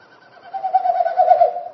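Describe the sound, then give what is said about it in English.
Winnowing of a Wilson's snipe in courtship display flight, air forced through its stiff outer tail feathers with each wingbeat: a hollow, throbbing hoot that swells from faint to loud in many rapid, even pulses. “So each time they flap their wings, it pushes air through the stiff outer tail feathers and it makes that woo, woo, woo, woo, woo kind of sound.”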